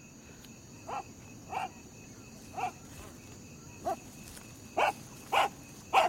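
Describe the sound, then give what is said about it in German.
A dog barks seven times in an uneven series of short, sharp barks over a low background hiss, the last few louder than the first. “Wem gehört denn dieser hässliche Köter?”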